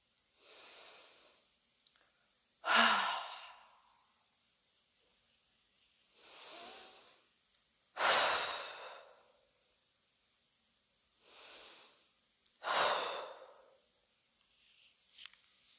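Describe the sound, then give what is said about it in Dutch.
Slow breathing during a guided meditation: three full cycles, each a soft, airy inhale followed by a louder, longer hissing exhale, with quiet pauses between and no talk. “Gaan we nog drie keer in en uitademen.”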